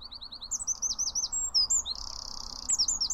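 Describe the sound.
A loud bird sings its song, repeating the same phrase of rapid high chirps and whistled notes in quick bursts over a faint, steady background hiss.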